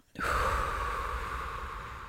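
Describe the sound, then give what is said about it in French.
One long, deep inhalation during a guided breathing exercise. The breathy intake starts abruptly, stays loud, and eases off slowly. “Et puis, on vient inspirer profondément.”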